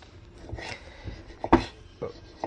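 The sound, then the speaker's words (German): A knife cuts tomatoes as they are halved and cored, making a few muffled, irregular knocks and slicing sounds over faint low background noise. “Dann die Tomaten halbieren. Die Blüte schneide ich raus.”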